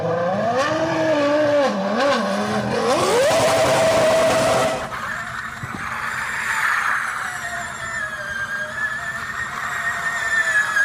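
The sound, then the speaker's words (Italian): A Formula 1 race car engine howls and revs up and down before climbing in pitch. Then comes a Formula E electric race car's smoother, thinner, steady whine. “Sentiamo da un audio com'è il motore della Formula 1 e quello della Formula E.”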